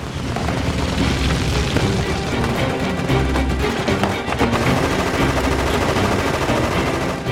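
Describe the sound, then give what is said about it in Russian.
Dense machine gun fire from soldiers on the banks of a ravine, firing down on a column of rebels in a film. Loud, continuous rattling bursts run throughout, mixed with heavy booms, with no talk. “По колонне сверху, с берегов оврага, солдаты ведут плотный пулеметный огонь.”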